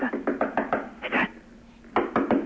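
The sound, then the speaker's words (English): Knocking on a door: a quick run of sharp raps, a short pair, a pause, then another burst of rapid knocks. “There's someone at the door.”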